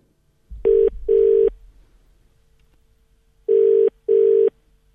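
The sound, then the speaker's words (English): Telephone ringback tone as a call is placed: two double rings, each a pair of short steady buzzing tones, separated by a quiet pause, clean and alone. “So I'm just about to give Libby King a call.”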